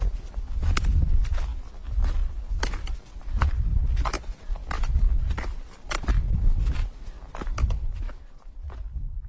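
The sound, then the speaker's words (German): Footsteps of a hiker walking downhill on a mountain path toward the Devil's Bridge, many steady, evenly spaced steps over a low rumbling background. “Jetzt laufe ich bergab zu der Teufelsbrücke, die über das Ziel führt.”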